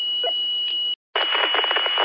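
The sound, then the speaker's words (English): Beep from a Yaesu FT60 handheld radio: a steady high-pitched tone lasting about a second, then a brief dropout to silence and a loud, buzzy burst of noisy radio audio. “figure out why that beep is in there covering up the first word and the first syllable of the next word. Are you on a Yaesu handheld?”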